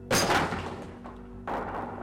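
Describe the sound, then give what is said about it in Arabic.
A door slammed shut in a frightening story: two heavy wooden thuds, the first loud and booming, the second slightly softer, each trailing off over a low, steady background hum. “جريت بسرعه ورجعت على الاوضه وقفلت على نفسي الباب زي الطفل الخايب.”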